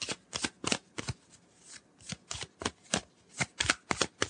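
Thick, gold-foil-stamped board game role cards, eight in the set, are handled and shuffled, giving many crisp papery flicks and snaps in quick irregular bursts against a quiet background.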